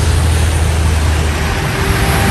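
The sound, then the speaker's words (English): Cars moving along an expressway make a loud, continuous, steady roar of tire and engine noise with a low rumble underneath and no voices. “I've been sent here with a microphone and a camera to stand here above the expressway and show all the people that the cars are moving down the expressway.”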